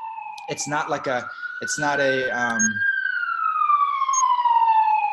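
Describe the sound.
A loud wailing siren sounds, its tone climbing slightly and then sliding slowly downward in one long sweep. People talk over the first half, and the siren continues alone afterward.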